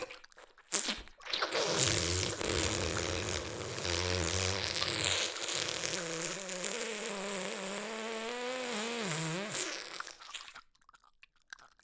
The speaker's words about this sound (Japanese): さ、思いっきり食べてあげるわ。